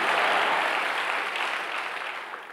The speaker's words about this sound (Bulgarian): ако ръкопляскаш, ръкопляскай, като че вярата ти се издига